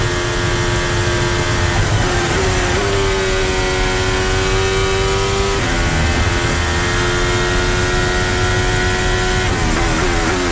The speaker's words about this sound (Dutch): We zijn hier aan boord hier bij Charles Leclerc. Ook weer even luisteren bij Ferrari.